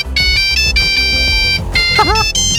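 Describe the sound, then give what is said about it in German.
An old-style mobile phone ringtone plays loud, bright electronic beeping notes in a quick, repeating melodic pattern that fills the whole clip. “Schön wär's, wenn wir solche Klingeltöne noch hätten, ja.”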